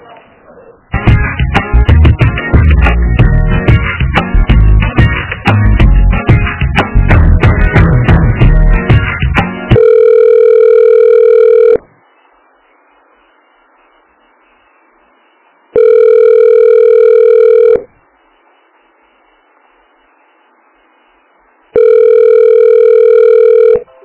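Telephone ringback tone while a phone call is transferred: three steady, loud two-second tone bursts separated by quiet gaps of about four seconds, following roughly nine seconds of dense, harsh, noisy sound on the line.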